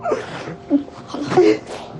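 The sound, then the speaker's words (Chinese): A woman cries in a few wavering, broken sobs and whimpers, with short moaning rises between catches of breath, at a moderate level. “别哭了，姐。”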